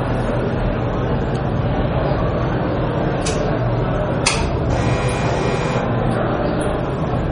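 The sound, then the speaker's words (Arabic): An electric fan runs steadily, a continuous airy whoosh with a low hum underneath and a few brief, higher-pitched noises over it. “المروحة تقدرون تخلون على الخفيف.”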